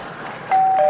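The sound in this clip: A doorbell chime rings at a front door. A sustained higher tone is followed by a lower one, rising clearly above a soft background hiss and holding to the end.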